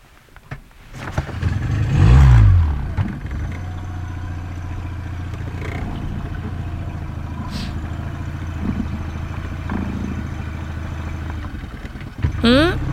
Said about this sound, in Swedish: Okej, då sätter vi igång och åker hem då. Ja, vi drar igång snurran.